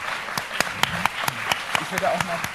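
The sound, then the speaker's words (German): Audience applause given as thanks to volunteers who did the dishwashing. Sharp claps land at a steady, rapid rhythm over a bed of clapping noise while a voice speaks over it. “Können wir bitte einen Applaus haben als Dankeschön dafür, dass ihr so viel gespült habt?”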